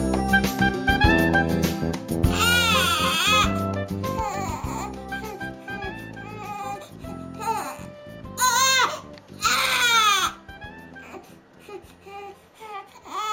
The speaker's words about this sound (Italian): Questo bambino sta piangendo, semplice, no? Elementare.